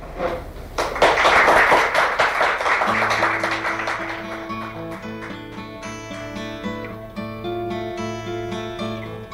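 Audience applause welcoming a performer back rises into a dense, loud clatter of clapping, then thins and fades as steady acoustic guitar playing takes over.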